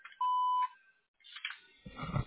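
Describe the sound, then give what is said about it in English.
An answering machine sounds its voicemail beep: a single steady, high, pure electronic tone lasting about half a second, followed by faint low noises. “if you wish to leave a message, please do so at the tone, and I'll return the phone call as soon as possible.”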